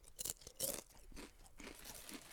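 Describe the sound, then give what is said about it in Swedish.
Potato chips are eaten with faint, crisp crunching, two sharp bites followed by softer, irregular chewing crunches, with no talk. “Jag ska bara äta chips. Jag ska ta chips.”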